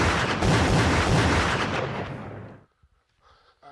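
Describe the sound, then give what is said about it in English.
Heavy gunfire, a dense, roaring barrage of shots that runs for about two and a half seconds, then cuts off abruptly into near silence with a few faint sounds. “We're clear. Oh, they must have been shooting at somebody else.”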